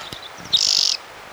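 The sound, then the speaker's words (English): A single bird sings one loud, high trilled phrase made of rapid pulses, preceded by a few faint, brief chirps. The bird is heard alone, with no voices. “One bird, two songs.”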